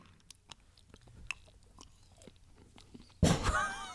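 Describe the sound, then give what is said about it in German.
Someone chews chocolate, making a run of small, soft crunches and clicks at an irregular pace, followed near the end by a sudden louder burst of noise. “aber ich würde würd erstmal die Schokolade noch probieren”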